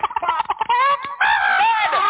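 A chicken clucking, loud and close, starting with a run of quick choppy clucks that give way to longer drawn-out squawking calls.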